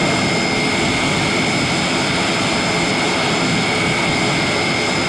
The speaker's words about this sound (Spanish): Así sonaba ese instante en el que el avión del Ejército del Aire aterrizaba en Madrid con uno de esos papamóviles.